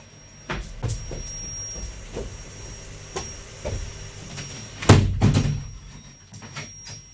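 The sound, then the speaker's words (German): A window is being closed: several soft knocks and clunks build to one loud thud about two-thirds of the way through, while a thin, steady high whine runs in the background. “Entschuldigt mich bitte, ich muss kurz mal das Fenster schließen. Ich weiß nicht, da bohrt jemand draußen.”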